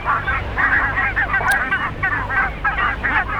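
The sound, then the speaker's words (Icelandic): A bird gives a goose-like honking call, repeated as a rapid series of many nasal, mid-pitched honks at a fairly even rhythm, loud and continuous throughout. “Þetta er svona, ef ekki að segja, gæsalegt hljóð, er það ekki?”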